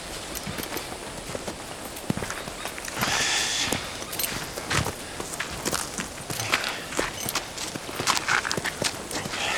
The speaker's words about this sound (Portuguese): Ele puxa um cavalo marrom pela rédea.